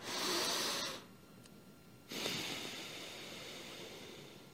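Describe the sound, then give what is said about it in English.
Two long, slow exhalations during a calming breathing exercise, each a steady breathy rush of air, the first loud and brief, the second drawn out and gently fading. “You want to breathe out long and breathe out all the air you have. So I'll give you two breaths here so you can watch.”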